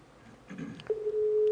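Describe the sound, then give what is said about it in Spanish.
A telephone line tone sounds while a call is placed to a home: faint line noise first, then one steady, mid-pitched electronic tone that holds unbroken to the end. “Ahí estamos llamando a la Casa de Norma y del Gallego.”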